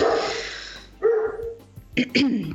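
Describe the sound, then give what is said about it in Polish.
A dog barks at a countryside home, giving two sharp, loud barks near the end after a stretch of talking voices. “A teraz słychać szczekającego Gugusia. Ale zaraz się uspokoi.”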